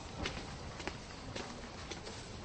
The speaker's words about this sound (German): Wir steigen eine kleine Treppe hinauf.